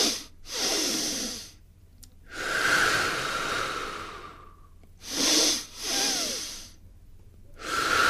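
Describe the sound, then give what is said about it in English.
A breathing exercise: two short, sharp inhales followed by one long, hissing exhale, then the pattern starts again. The breaths are fairly loud against a faint low hum. “it's quite simply two inhales and one long exhale. So think of your inhale like you're going upstairs.”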